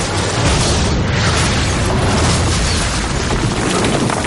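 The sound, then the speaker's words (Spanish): A cannon shot blasting a hole in a wall after passing through a railway wagon, heard as a loud, dense, rumbling roar that holds steady for about four seconds without separate distinct impacts. “Otros suben a un cañón y lo apuntan hacia ellos. Disparan, atraviesan el vagón sin dañarles y abren un boquete en el muro.”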